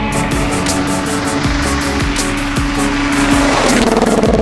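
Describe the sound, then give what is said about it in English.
Rally car engines roar at the 2021 WRC Safari Rally, a loud, continuous drone of revving motors with layered engine tones that shift in pitch toward the end. “If you enjoy all things fast, the roar of the engines, and what makes them go even faster,”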